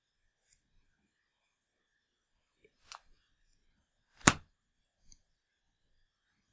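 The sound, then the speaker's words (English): A flexible riding crop with a wooden handle and leather tip hitting a bed: one sharp slap stands out against near silence, with a fainter hit before it and a small tap after. “and that's the sound of it hitting my bed. It's a riding crop.”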